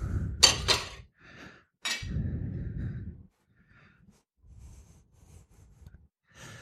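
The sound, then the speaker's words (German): A plate and spice containers are set out on a kitchen counter while cooking Vietnamese shredded chicken, giving a few sharp clinks and dull knocks followed by quieter, sparse handling sounds. “Ich stelle mir hier schon mal einen Teller bereit und auch die Gewürze.”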